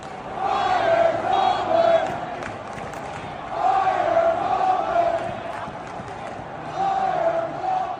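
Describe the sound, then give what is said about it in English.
A Pittsburgh stadium crowd of Steelers fans reacts in three long, swelling waves of massed voices, each holding a sustained tone before fading back to a lower crowd murmur. “That sound was serenading from the stadium in Pittsburgh.”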